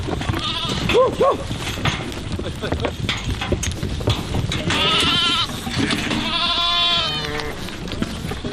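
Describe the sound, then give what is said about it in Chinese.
Sheep and goats in a herd being driven to warmer winter pasture bleat in several loud, wavering calls that overlap one another. “托列西便和家人赶着畜群迁徙到这里”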